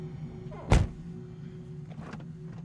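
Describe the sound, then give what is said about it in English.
A pickup truck door shuts outside an apartment with a single dull, low thud, heard faintly over a steady low background hum. “Outside the apartment, he closes the pickup door.”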